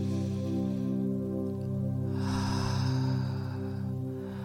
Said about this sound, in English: Take a deep breath in.